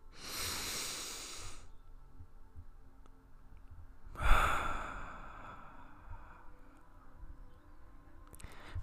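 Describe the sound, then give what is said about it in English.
A deep breath drawn in, a long airy rush lasting over a second, followed after a quiet pause by another loud, breathy burst that trails off slowly. “How about everybody takes a deep breath in?”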